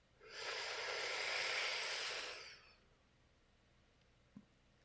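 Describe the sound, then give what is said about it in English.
A single long, deep breath taken during a guided relaxation exercise, a soft, steady airy rush that swells, holds for about two seconds and fades, heard alone with no talk. “So let's go ahead and take another deep breath in.”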